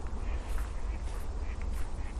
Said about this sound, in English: It's the cry of the wild duck. The one thing I'm determined to do today. There they go again, they're just circling me.